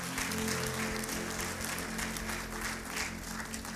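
Church audience applauding in praise during a service: steady, sustained clapping from many hands at an even level for the whole stretch.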